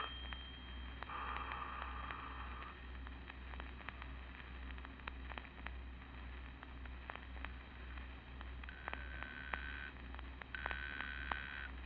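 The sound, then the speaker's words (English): A telephone rings in a few short, faint buzzing bursts over a steady low hum and light crackle, with no talk. “Don't touch that receiver, Henderson. Well, it might be headquarters. No. I'm not to be called here. I've left instructions with the operator to trace any call that comes in. I'll try to stall anyone who calls. Let it ring.”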